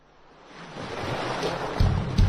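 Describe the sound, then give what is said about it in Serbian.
Ocean waves washing onto the warm Albanian coast: a broad, rushing surf that swells steadily in loudness, with a couple of heavier breaking surges near the end. “Zamislite jutro u šum talasa, a večeri na toplom albanskom primorju.”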